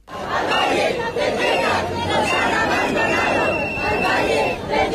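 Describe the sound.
A crowd of protesters in central Madrid decrying neglect of a valley after a wildfire in Ávila, heard as a dense, continuous din of shouting voices that stays loud throughout.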